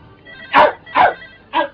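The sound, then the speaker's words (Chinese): A dog barks three times in short, sharp bursts, spaced roughly evenly and heard alone, with no voices. “你只狗吠你啊！ 哦， 喂，电话啊，电话啊！”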